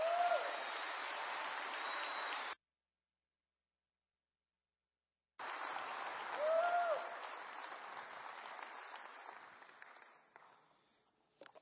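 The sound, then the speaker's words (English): A church audience at a Biker Sunday service applauds to welcome visiting missionaries to the biker community. Steady clapping breaks off into a silent gap, then resumes, swells, and gradually fades out. “Put your hands together. Give them a massive welcome.”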